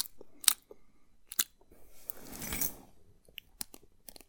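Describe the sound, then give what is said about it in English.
Teeth grinding: a few sharp, faint crunchy clicks, then a longer gritty grinding burst in the middle, followed by more scattered crisp ticks, with no talk. “It was my teeth. I hate it when people grind their teeth.”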